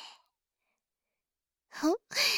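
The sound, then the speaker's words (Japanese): Breathing during a guided deep-breathing exercise: a brief soft breath, a long pause of silence, then a voiced, sighing exhale and a loud, airy breath, with no other sound. “大きく息を吸って、吐いて。もう一回、大きく息を吸って、吐いて。”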